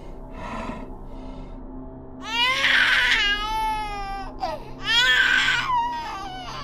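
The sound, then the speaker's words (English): A creature mimics a baby's cry with two wailing, infant-like cries of wavering pitch, each about a second long. A quieter pause separates them, over a low background hum. “Then I watched as the sound of a baby cry came from the creature's mouth.”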